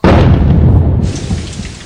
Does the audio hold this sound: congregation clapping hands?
no